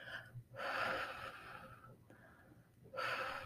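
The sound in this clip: Slow, deep breaths during a grief meditation: long, breathy rushes of air, one loud, a softer one after it, then another loud breath starting. No voice is heard.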